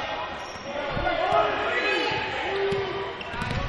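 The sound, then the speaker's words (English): Basketball dribbled during a high school varsity game: a few dull bounces thump under a commentator's voice, with crowd noise in the background. “Left-hand dribble.”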